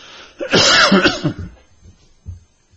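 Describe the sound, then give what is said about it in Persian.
A single harsh, loud cough bursts out, followed by a few much fainter throat sounds as it dies away. “باز امروز ما صرفمون گرفته”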